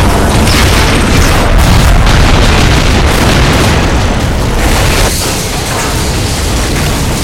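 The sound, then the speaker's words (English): Explosions from grenade launchers fired together make a heavy, continuous booming roar, a dense rumbling wall of sound that stays loud and steady throughout with no distinct separate blasts. “Everybody prep your grenade launchers. Hold it. Hold it. Hold it! Fire!”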